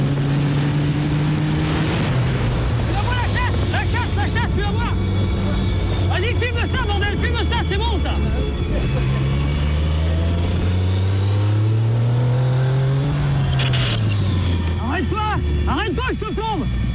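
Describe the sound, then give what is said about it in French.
Powerful engines roar and rev as motorcycles race at full speed past police patrol cars at night in the Bois de Boulogne, the loud continuous drone swelling and dipping in pitch throughout. “Les motards lancés à pleine vitesse dépassent les véhicules de la BAC.”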